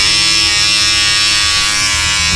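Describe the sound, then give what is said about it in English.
Steady buzzing of broken electric hair shears that have just been repaired, cleaned and oiled, running continuously at a constant pitch with a rich harmonic drone and no voices. “So Susie gave me her broken electric shears and said I could use it if I could fix it. So I got a screwdriver, I tightened a few screws, I cleaned and oiled it, and”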